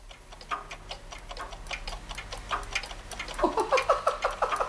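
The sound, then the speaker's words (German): Many small and large clocks tick together in a room, their overlapping ticks at different rates, with a fast, regular tick growing louder toward the end. “Ist das ein Geticke und Geschwinge? Die kleine Uhr da, wie die schnell hin und her wedelt.”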